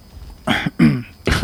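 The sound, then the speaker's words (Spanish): Someone clears their throat in three rough, raspy bursts, each loud and abrupt, with short gaps between them against a quiet background. “¿Esa carraspera ha sido por algo?”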